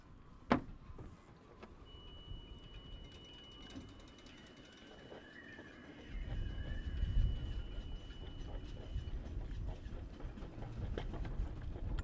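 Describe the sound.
A water-cooled engine starts on the first try: after a quiet stretch with a single sharp click, a low, steady rumble comes in about halfway and keeps running faintly to the end.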